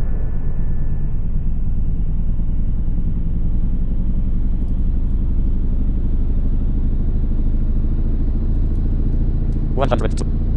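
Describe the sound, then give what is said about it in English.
Loud, continuous low jet-engine rumble of an aircraft taking off from a runway, holding steady throughout, with a brief burst of sharp clicks near the end. “SK-737, you are cleared to take off using the runway in front of you.”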